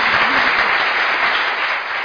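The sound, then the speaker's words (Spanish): An applause sound effect played by a radio operator, a dense, steady wash of many hands clapping with no voices, holding an even loudness before easing slightly near the end. “Ah, pero como es nuevo, no sabe que cuando yo saludo al operador se tiene que poner aplausos. Ahí está.”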